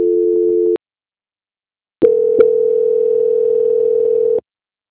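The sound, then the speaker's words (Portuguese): A telephone line tone plays while a call is being transferred. A short steady tone stops, and after a pause a click starts a longer steady tone, loud and alone. “eu vou pedir então para o senhor aguardar em linha que eu vou transferir para o controle de qualidade que vai dar continuidade na contratação”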